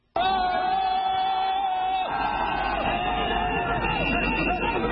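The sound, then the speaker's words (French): Thousands of party supporters cheer as they welcome Abdoulaye Wade in Dakar, in a loud, unbroken roar of crowd noise that begins abruptly and holds steady throughout. “Maître Abdoulaye Wade n'a rien perdu de sa popularité. Il a été accueilli par des milliers de militants en liesse”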